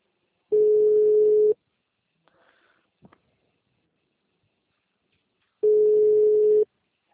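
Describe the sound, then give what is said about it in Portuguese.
Ringback tone of an outgoing phone call that later goes to voicemail: two steady, low, single-pitch tones, each about a second long, separated by a long quiet gap with a few faint small noises. “Pois ele chama e fica contando o tempo ali como se tivesse já em ligação. Aconteceu umas 3 vezes. E aí depois ele vai dar caixa postal.”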